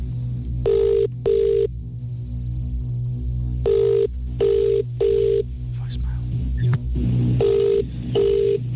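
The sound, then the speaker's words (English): A telephone rings on an outgoing call: a series of short electronic ringing-tone bursts in a regular, partly paired rhythm over a steady low hum, with brief gaps of quiet between groups. “All right, so I need you to dial Dominic Byrne's number.”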